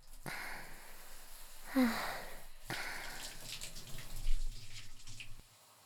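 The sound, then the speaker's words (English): Water pours and splashes in a few short gushes as a person is rinsed off while bathing, with softer trickling between the bursts. “Let me rinse you off one last time.”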